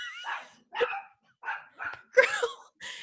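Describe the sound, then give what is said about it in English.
Dogs in attack mode let out several sharp barks and higher yips in an irregular sequence, each burst short and separated by brief silences. Some barks are louder than others. “your dogs are on attack mode now.”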